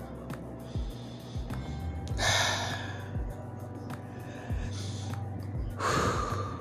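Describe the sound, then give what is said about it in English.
A person takes a few deep, breathy inhalations and exhalations. The breaths come as airy bursts, with the loudest two about four seconds apart, over a steady low background hum. “Take some breath. I had to take a couple breaths, y'all.”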